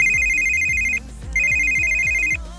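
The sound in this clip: An electronic telephone ring trills in two long bursts separated by a short pause, bright, loud and steady in pitch.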